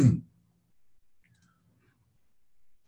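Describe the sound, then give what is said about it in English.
A single sharp mouse click starts playback, followed by near silence with only faint, low murmurs. “This time when I click play,”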